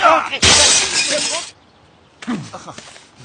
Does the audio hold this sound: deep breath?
no